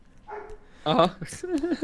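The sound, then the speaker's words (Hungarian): Dogs bark in a garden: a few short, sharp barks or yips, followed by higher, wavering whine-like calls. “És akkor ott el vannak a kutyusok. Ja, lehet hallani a háttérből őket, de ez a legkevesebb.”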